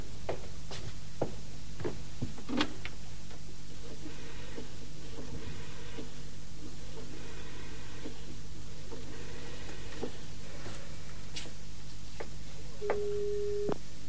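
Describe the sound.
A telephone line tone sounds briefly near the end as a steady, mid-pitched beep. Before it, a quiet background carries scattered faint clicks.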